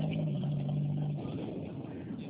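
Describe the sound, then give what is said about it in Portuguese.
A passing truck rumbles through a phone call as a low, steady engine drone, with a hum in the first half that gradually eases off, and no talk over it. “só um minutinho, tá passando o caminhão que não tô conseguindo te entender”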